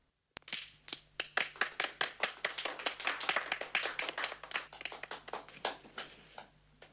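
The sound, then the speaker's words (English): Children applauding indoors, many quick bright claps in a lively stream that thins out and fades near the end. “A reprimanding look from their mother stops the children applauding.”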